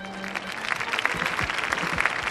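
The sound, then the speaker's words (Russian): Audience applause, a crowd clapping admiringly in a lively patter of many hands at moderate loudness, building slightly after a brief low hum at the start. “Зрители восхищенно аплодируют.”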